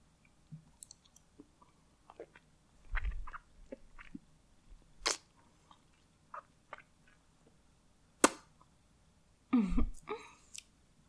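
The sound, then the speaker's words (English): Wet sucking of fingers to moisten them: a sparse, quiet series of soft mouth clicks and smacks, with a few louder wet slurps standing out from near silence, and no talk. “Now, I need to make my fingers nice and wet, okay? I'm just going to suck them a little.”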